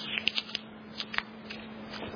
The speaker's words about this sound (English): So, let's look at this dollar bill. And I want to do something. I'm going to just crumple it up.